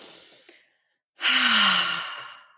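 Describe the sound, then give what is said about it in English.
A deep breath: a faint inhale, a brief silence, then a long, loud, breathy exhale like a heavy sigh that slowly trails off. “I'm going to take a deep breath here”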